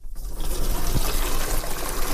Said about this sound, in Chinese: 这个水，比方说我现在接了，我沉到明天早上起来，我这个瓶子里头可以有这么一层锈。